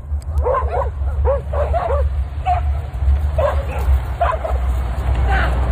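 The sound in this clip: Several loose dogs bark and yip excitedly as they chase a man after their leads are let go. Sharp, repeated high-pitched yelps come in clustered bursts over a continuous low rumble.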